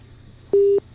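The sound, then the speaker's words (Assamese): A telephone call-disconnected tone: one short, steady mid-pitched beep lasting about a quarter second, alone over faint background hiss. “যোগাযোগ বিচ্ছিন্ন হৈছে”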